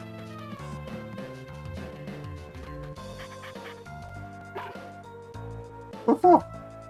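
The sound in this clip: Dog barking in a video game: a couple of short, sharp yips near the end, louder than the tonal game music that plays throughout.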